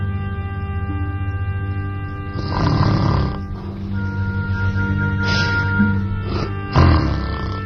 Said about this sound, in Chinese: 我不打呼噜，我睡不着。